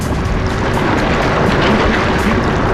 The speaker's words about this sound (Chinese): 加水和洗衣液启动，